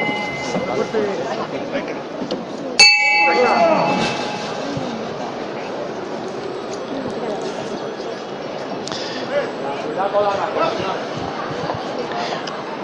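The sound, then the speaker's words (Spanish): A single bell strike during a Holy Week procession in Jaén, as the Virgin's float sets off; a sharp clang with ringing overtones that fade over about a second, over steady crowd murmur and a talking voice. “ha tocado la campana una mantilla de la, como digo, de una larguísima fila de mujeres de mantilla”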